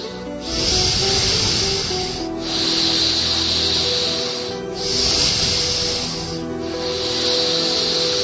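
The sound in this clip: Loud, sustained breathy hissing made by moving the diaphragm, in four long airy pushes separated by short breaks, each holding steady before cutting off.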